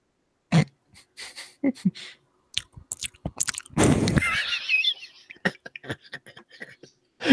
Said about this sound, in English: I do have a second beer here. For those of our audience who enjoy a good ASMR.